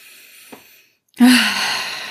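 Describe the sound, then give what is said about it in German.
A deep breath, heard as a brief soft sound and a short silence, then a long, loud, airy breath that slowly fades. “Atme noch einmal tief durch.”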